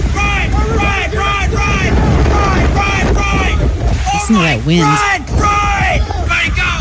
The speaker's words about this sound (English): did you see that video yesterday of the people running into the Walmart because a tornado was coming across the parking lot? It was in Texas.